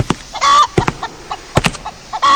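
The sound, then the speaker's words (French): Hens at a breeder's farm cluck in many short, sharp bursts, broken by two longer squawking calls near the start and end. The calls are loud and have a nasal, rising quality, and no human voices are heard. “Il y a un tel raffut ici. Je me demande bien ce que manigance cet éleveur avec ses poules.”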